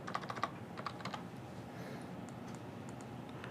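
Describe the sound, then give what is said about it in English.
Typing on a computer keyboard: a quick run of keystrokes at the start, then sparser, scattered clicks that fade into a faint, quiet background. “Oh, yeah, it would help if I typed varchar correctly.”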